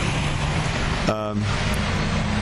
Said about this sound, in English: It's very busy, there's lots of traffic and lots of people walking in front of me.